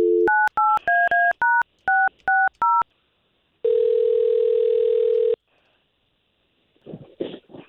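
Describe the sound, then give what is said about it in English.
Eight quick, evenly spaced touch-tone keypad beeps as a telephone number is dialed for a call, followed by a steady sustained tone and then faint rustling near the end. “We're just going to try to give her a call”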